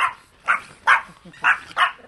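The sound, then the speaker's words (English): Pomeranian show dogs bark in a kennel, giving five short, high-pitched yaps spaced fairly evenly with brief gaps between them. The barks are clear and come without any talk. “Herbert Liu tends to the pack of prize-winning show dogs that he keeps in a kennel next to the dug-up backyard. The stars here are Pomeranians named Dante and Zeta.”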